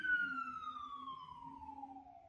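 An emergency vehicle siren passing by, a single continuous wail whose pitch slides steadily downward as it goes past, moderately faint over low road rumble.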